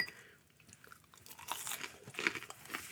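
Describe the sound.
Crunchy chewing of a snack seasoned with five spice and cayenne pepper: many faint, irregular crisp crunches and bites follow one another, quiet and without talk.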